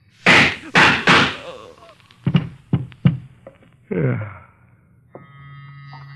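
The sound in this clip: Gunshots in a radio drama: three sharp, loud bursts in quick succession, then a few softer knocks and thuds with a brief voice.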